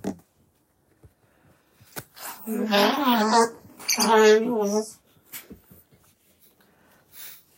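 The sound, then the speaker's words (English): A person blowing a congested nose: two long, loud, honking bursts with a wavering pitch, surrounded by a few short sniffs and faint clicks. “I'm going to blow my nose because it's... Okay. Cover your ears, guys. Don't get scared.”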